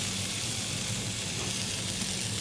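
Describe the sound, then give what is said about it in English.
New season spring lamb sears quickly in a hot pan, giving a steady, unbroken sizzling hiss with no talk over it. “So I just sear it quickly for probably for a couple of minutes on four sides to try and get a bit of an edge on it as well.”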